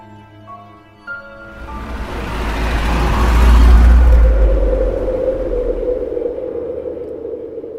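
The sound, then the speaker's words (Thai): Low engine rumble from a car slowing into a curve swells to a broad peak, then eases into a steadier, slightly quieter drone with a faint sustained tone running through it. “นายนบก็เบาเครื่องชะลอเข้าโค้ง”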